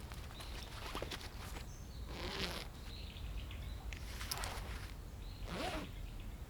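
A small pouch holding a key is unzipped in a few faint, short rasping zipper pulls, separated by pauses against quiet background noise.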